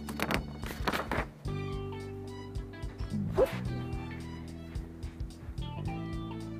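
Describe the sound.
A noisy puppy barks in a few short, sharp bursts at home during Halloween pumpkin carving, with a low, steady hum running underneath.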